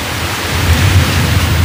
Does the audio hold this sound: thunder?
yes